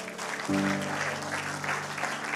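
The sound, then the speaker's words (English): A church audience applauds people who have just prayed for the first time. The clapping forms a steady, even wash, and a sustained low musical tone enters partway through. “Can we give these new people a round of applause,”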